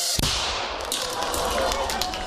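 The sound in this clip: A small shaped explosive charge of 3 grams detonates in one sharp, short bang near the start. A steady noisy hiss follows, with a few faint clicks after it.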